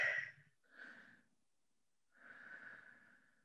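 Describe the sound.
Soft human breathing: three quiet breaths, a short sharp one, then a brief one, and after a pause a longer, drawn-out breath.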